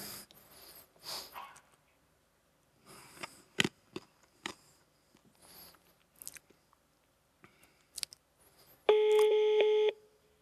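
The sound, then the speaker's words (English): A mobile phone rings after a call to its forwarded number, one steady, buzzing ring tone of about a second at the end, preceded by scattered clicks, taps and soft rustles with no talk. “and this phone is ringing, right?”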